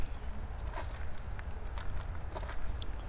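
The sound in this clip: Footsteps walking along an outdoor path beside a wall, with soft, irregular crunches of steps heard faintly over a steady hiss of background noise.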